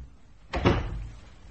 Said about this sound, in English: Close the door.